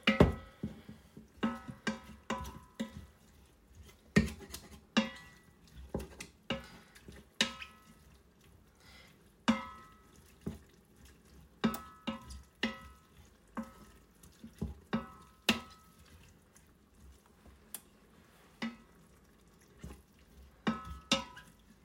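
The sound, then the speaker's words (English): Spoon stirring food in an Instant Pot on sauté mode, with oil added to the non-stick pot. Many irregular scraping clicks and knocks come at an uneven rhythm, moderately loud, with no talking. “you wouldn't really walk away from your Instant Pot while it's in sauté mode, because you would be stirring.”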